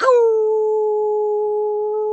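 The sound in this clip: A human voice imitates a howl, giving one loud, sustained, wolf-like note that holds a steady pitch for about two seconds.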